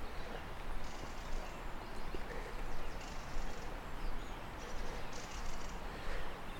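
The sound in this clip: Rattling flight call of a mistle thrush at dawn beside a canal in the Brecon Beacons: a few short, dry, high chattering bursts, faint over a steady wash of background noise.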